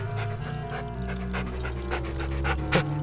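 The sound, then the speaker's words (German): A dog pants hard as its jaws tremble: a rapid run of short, breathy puffs at an even rhythm, fairly loud and steady throughout, with no talking. “Sophie kraute dem Hund den Nacken. Ein kräftiges Zucken durchlief seinen Körper. Die Kiefer fingen an zu vibrieren, sein Maul öffnete sich.”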